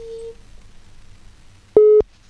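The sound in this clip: A telephone call tone sounds while someone is phoning: two short, steady, mid-low tones separated by a gap of over a second, the first fainter and the second louder and sharply cut off.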